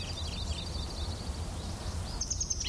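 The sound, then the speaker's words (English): Call notes of a single bird: a few short, high chirps near the start and a brighter call later, faint over steady low background noise. “Call notes of the same bird.”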